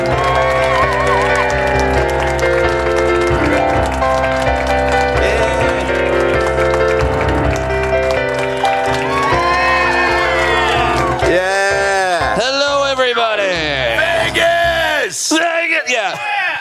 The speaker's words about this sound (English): Are you ready for the About Last Night podcast? Yeah. Give it up for your hosts, Brad Williams and Adam Ray.